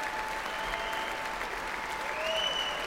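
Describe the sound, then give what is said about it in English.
Steady, dense applause from a concert audience as composer John Williams comes to the front of the stage, with faint sustained tones running through the clapping. “David Newman is applauding for John Williams along with this audience.”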